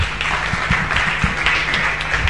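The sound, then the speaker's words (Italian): Applause from an audience at a stage event as a bookseller is welcomed: a thin patter of individual claps, moderately loud and irregular. “Ha un applauso anche a lui.”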